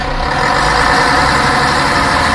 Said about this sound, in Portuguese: Te apressa que o motor do ônibus já está roncando.